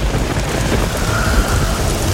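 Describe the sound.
Heavy rain and rolling thunder of a storm: a dense, steady hiss of rainfall over a deep, continuous low rumble, loud and unbroken throughout with no voices.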